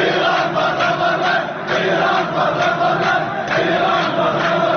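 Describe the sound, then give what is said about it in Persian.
Iraqi protesters chanting slogans against Iran and demanding it leave Iraq make a loud, dense roar of many voices. It holds steady throughout, with brief dips in volume. “روز یک شنبه گزارش های متعددی از شعار و اعتراض علیه ایران در میان تظاهر کنندگان عراقی منتشر شد که این صدای یکی از این اعتراضات است”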